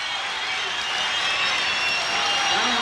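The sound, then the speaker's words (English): An audience applauds in a steady, dense wash of many clapping hands that carries on without a break. “this applause is for Jack Smith.”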